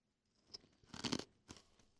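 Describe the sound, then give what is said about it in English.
Close-up crunching of sour, fruity cereal chewed right at the microphone, a few crisp, quiet crunches with one denser burst in the middle. “I cannot believe you're chewing on the mic.”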